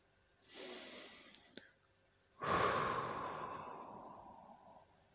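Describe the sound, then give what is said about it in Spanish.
A deep breath drawn in, then a long exhalation out through the mouth, as part of a guided breathing exercise. A short airy inhale is followed after a pause by a louder, breathy exhale that slowly fades. “Vuelvo a respirar profundo, bien profundo, con una exhalación por la boca.”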